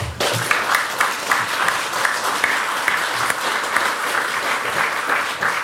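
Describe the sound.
An audience applauds to welcome a panel of speakers before a conversation. The dense, steady clapping is loud and holds throughout without fading.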